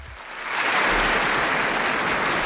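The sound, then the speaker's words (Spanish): A crowd bursts into applause for a guest at a Spanish-language gathering, the dense clapping swelling over the first moments and then holding as a loud, even roar without speech. “ella se merece un aplauso.”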